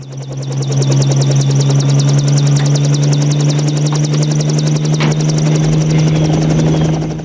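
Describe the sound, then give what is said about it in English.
A military helicopter lifts off beside a house. The engine is loud and steady, a constant low drone, with rapid, rhythmic rotor chopping running throughout. “Later, Kirby gets back into the chopper and waves to John.”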